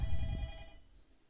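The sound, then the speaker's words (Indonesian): A telephone rings with an incoming call: one brief ring with a steady tone that fades out after about a second. “Ada yang telpon nih.”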